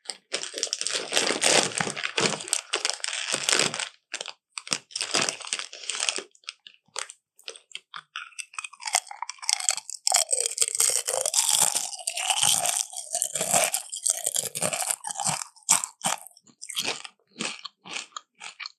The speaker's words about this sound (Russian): последующий хруст говорит о том, что это какой-то овощ или фрукт. Но ты ешь что-то из пачки, судя по шелесту.